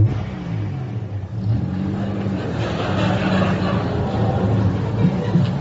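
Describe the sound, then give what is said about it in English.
A car reverses back to a corner and drives up again for the cameras. Its engine rumbles and revs steadily, with crowd chatter throughout. “Okay, driver, just reverse back to that corner so we can see you arrive.”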